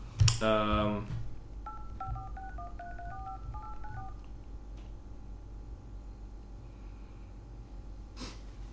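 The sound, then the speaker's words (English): Keypad tones sound as a mobile phone call is dialed, a rapid run of short, clean beeps at shifting pitches, preceded by a loud, breathy burst of noise and followed by quiet, with a brief click near the end. “Let's call Mike. Yeah, we should get Mike on the line here. Maybe he can use it for his next project. I'll call him.”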